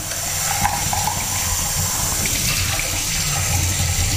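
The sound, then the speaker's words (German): Running tap water pours steadily as something is rinsed out under it. It makes a continuous, even rush with no talk over it. “Das spülen wir jetzt aus.”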